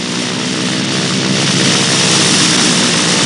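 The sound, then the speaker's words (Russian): Aircraft engine drone from a plane, a loud, steady roar with a low throbbing hum that holds nearly constant throughout. “Самолет удаляется.”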